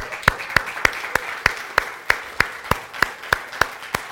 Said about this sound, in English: Just want to welcome all our guests this morning. Welcome in Jesus' name. Let's give them a hand.